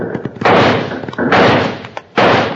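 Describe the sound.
Six-gun gunfire in a western radio drama shootout: three loud blasts, each with a roaring tail, separated by brief clicks and thumps.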